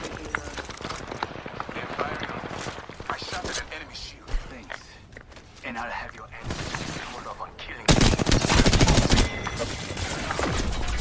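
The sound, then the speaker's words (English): Gunfire from the video game Apex Legends crackles in dense, rapid bursts beneath a player talking, with the barrage growing louder toward the end. “Somebody else is shooting at me.”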